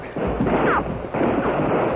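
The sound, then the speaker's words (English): Gunfire from many six-shooters blasting at night beside a waterfall and creek: a dense, continuous roar of overlapping shots in two heavy surges, loud throughout with no clearly separate reports. “At the sight of a hooded figure with a six-shooter in either hand, 50 guns blasted the silence of the night, and Greenway”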